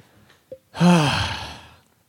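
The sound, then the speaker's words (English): A breath blown onto a microphone: one long, breathy exhale that rushes in, peaks, and fades over about a second. “Did I just breathe on the mic? I hope not. I hope I didn't breathe on the mic”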